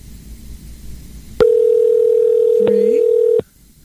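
An outgoing call ringing on a telephone line: one loud, steady, mid-pitched ringback tone lasting about two seconds, starting abruptly after faint background noise and cutting off cleanly.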